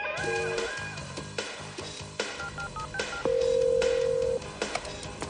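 Telephone keypad tones as a call is placed in a 1995 thriller: a few short beeps, then one long steady tone, heard over other busy background sound.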